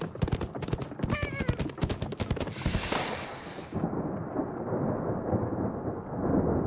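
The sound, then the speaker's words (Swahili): Rain starts falling from the sky, a low rumble and scattered sharp bursts giving way to a steady, dense hiss of rainfall that grows a little louder toward the end. “Tazama, wamelowa maji. Maji yameanza kuanguka kutoka mbinguni.”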